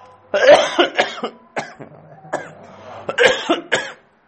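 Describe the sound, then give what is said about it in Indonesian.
Coughing during an Islamic jurisprudence lesson: a series of rough, throaty coughs in uneven bursts of varying loudness, with short pauses between them and no talk over them. “Tadi kok batuk ya?”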